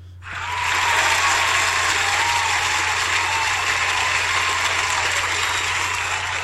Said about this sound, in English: Wow, the studio audience is going crazy tonight.